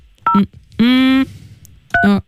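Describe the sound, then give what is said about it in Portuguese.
A telephone number is dialed as three separate electronic tones. The first and last are short two-tone beeps, and the middle tone is longer and buzzier. The beeps are loud against a quiet background. “Vamos ligar outra vez. Vamos tentar uma segunda vez, não é? Vamos tentar agora aqui uma segunda vez. Vou marcar outra vez”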